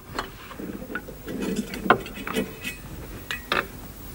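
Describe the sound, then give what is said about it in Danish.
Butter going into a frying pan to brown, with a few light clanks and scrapes of pan and utensil, irregular and moderately quiet. “Jeg skal lige have det smør på panden først, for så kan vi vist nå at få det til at brune.”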